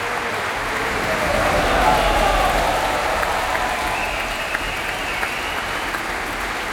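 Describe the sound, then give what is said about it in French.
An enthusiastic audience applauds the musicians of the Orchestre National de France as they bow at the Opéra Berlioz. The clapping is dense and steady throughout, swelling slightly early on before holding at a constant loud level. “des musiciens, des musiciennes de l'Orchestre National de France qui saluent devant ce public très enthousiaste, vous l'entendez ici à l'Opéra Berlioz.”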